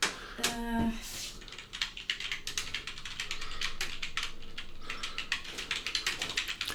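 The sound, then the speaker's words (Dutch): A computer keyboard in a radio studio typing rapidly, with many faint, crisp key clicks in uneven bursts continuing throughout. “Het geluid dat je hoort waren het toetsenbord van de computer in de studio van Radio Centraal bij de Wolkenbreers.”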